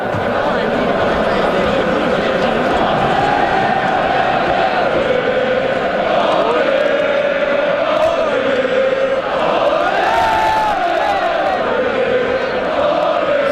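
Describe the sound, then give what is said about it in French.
Fans chant and sing together outside the Centre Bell arena before a match: a dense, loud wall of massed voices with sustained, wavering tones, steady throughout with no pauses. “Aucune raison, le match est même pas commencé. On s'échauffe, oui, on fait nos vocalises de partisans.”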